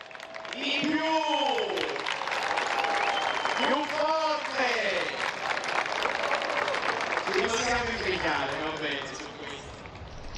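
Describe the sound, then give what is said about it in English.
A crowd chants Pope Leo's name during the papal visit to Lampedusa, with three swelling, sing-song chanted phrases rising and falling over a constant bed of cheering crowd noise. “So the speaker is saying Lampedusa always welcomes everyone, so now we have to get all our welcoming energy out as they chant Pope Leo and wave their flags.”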